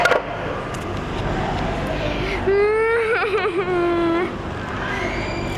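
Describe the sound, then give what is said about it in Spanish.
A girl cries in a radio drama, letting out a sustained, high wailing sob whose pitch wavers and quivers before it breaks off. A low background hum runs under it. “La niña, muy triste, se encerró en su cuarto y se puso a llorar.”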